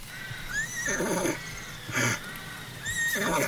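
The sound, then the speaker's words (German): A horse neighs in two separate whinnies, each a high, wavering call, with a brief noisy burst between them. The sound is fairly faint over a steady low background. “Das ist ja ein Wiehen. Es kommt vielleicht vom Ross.”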